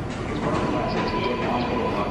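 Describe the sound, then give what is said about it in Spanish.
A subway metro train rumbles with a dense, continuous roar of wheels and machinery that stays steady and loud throughout, with no clear clicks, squeals or distinct voices standing out. “El metro es lo que más extraño en la pandemia”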